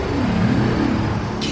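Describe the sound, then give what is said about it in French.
A designed, spaceship-like driving sound of an electric two-wheeler being developed in Denmark: a continuous, fairly loud whirring hum whose low tones waver slightly in pitch, with no talk over it. “Et je voulais vous faire écouter aussi le bruit d'un deux roues électrique qui est en train d'être conçu, je crois, au Danemark”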